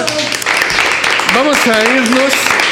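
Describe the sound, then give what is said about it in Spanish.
A radio studio audience applauds the departing guests with a broad wash of clapping. A man's voice soon talks over it as the applause continues underneath. “Y les brindamos un fuerte aplauso”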